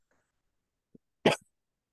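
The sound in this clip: A single short, sharp cough from a man with a tickle in his throat, preceded by a tiny click and followed by a faint trailing breath in otherwise silent surroundings.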